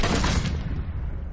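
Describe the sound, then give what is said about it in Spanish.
A firing squad fires a volley of gunfire at prisoners in a period film: a single loud burst of shots together that quickly fades into a low, rumbling decay. “Disparan a varios españoles. ¡Preparen armas! ¡Viva el rey! ¡Fuego!”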